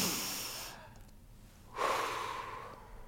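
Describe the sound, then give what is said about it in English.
A single deep breath, taken as a group breathing exercise, rises as a soft, airy rush of breath noise partway through and fades slowly over the last second. “take one breath with me”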